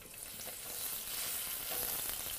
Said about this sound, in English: Now we cook this on medium to make the skin a nice color.